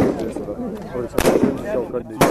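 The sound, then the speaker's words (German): Sharp rifle gunshots from Kurdish Peshmerga fighters firing prone at an assigned target on a shooting range near Erbil; two loud, abrupt cracks cut through ongoing talking. “Drei kurdische Kämpfer liegen auf dem Boden und schießen dreimal auf eine ihnen zugewiesene Zielscheibe.”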